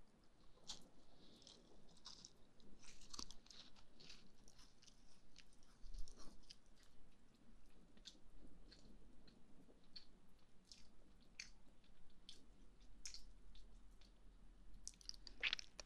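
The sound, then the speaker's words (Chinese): Chewing on crispy almond milk shortbread: many small crunchy bites and soft, moist mouth clicks, quiet and close, scattered irregularly with no talking. “这样，你一口一口的吃，是不是感觉到更好吃了？酥酥的杏仁奶酥，”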